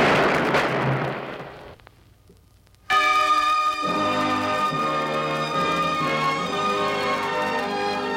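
A firing squad volley rings out at the 1824 execution of Agustín de Iturbide in Padilla, a loud noisy blast that fades over about two seconds, followed after a short hush by music that starts abruptly.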